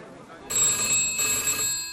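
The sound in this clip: A telephone rings in a newspaper editorial office: a bright, steady electronic ring that starts abruptly and holds level for about a second and a half, with no talk over it.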